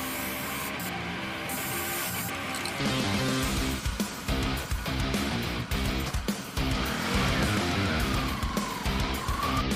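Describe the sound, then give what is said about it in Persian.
A motorbike rides into an alley with a loud, rough engine roar. Its pitch climbs into a rising whine near the end. “احمد با موتور توی کوچه میاد و روی دیوار خونه امیر یه چیزی مینویسه.”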